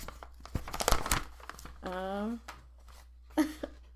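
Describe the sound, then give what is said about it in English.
A paper envelope being handled and torn open: crisp crinkling and short tearing bursts, with a voice speaking briefly in between. “There's another envelope. Hold on. I'm going to take a picture of it.”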